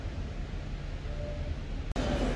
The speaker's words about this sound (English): now I'm at the Manchester train station, Piccadilly train station, heading to the airport